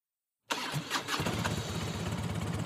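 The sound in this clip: Engine being cranked and started after mechanical work: silence, then a sudden whirring crank that catches within a second and settles into a steady, rumbling idle.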